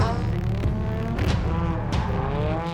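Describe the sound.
A race car accelerates hard on the throttle during a qualifying run. The engine roars loud and continuously, its pitch surging upward a few times as it revs.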